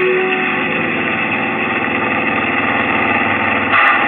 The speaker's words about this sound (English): The accelerator's down to the floor. Faster.